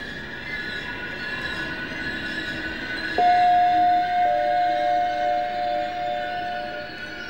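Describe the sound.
A train pulls into Berlin Zoologischer Garten station: a steady rail rumble runs throughout, then a high, thin wheel squeal starts about halfway through and holds, with a second squealing tone joining it.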